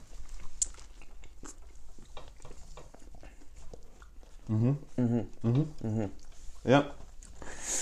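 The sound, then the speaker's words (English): Crunchy bites and chewing of a bagel topped with jalapenos, not fresh: several crisp clicking crunches come first, then people talk over the chewing. “How's the jalapenos? Spicy. Yeah. And it tastes good. Okay. Let me take a bite.”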